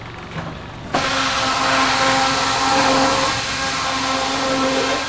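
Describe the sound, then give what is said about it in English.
A fleshing machine with long cylindrical rolls spinning at very high speed, processing washed and soaked animal skins, kicks in abruptly after a quieter start, then holds a loud, steady whirring drone with a humming tone. “We call this machine the flesher. This is basically it's a series of long cylindrical rolls, and it spins at very high speed. You lay the skin in there half at a time.”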